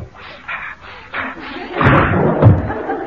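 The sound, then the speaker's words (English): A window is opened: a few muffled bumps, then a louder, rougher scraping burst that ends in a dull thud. “I really must open the window.”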